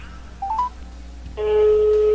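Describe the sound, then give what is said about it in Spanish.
Telephone keypad dialing tones sound as a call is connected: three short beeps step upward in pitch, followed by a long, steady, louder tone. “ya estamos enlazando la llamada”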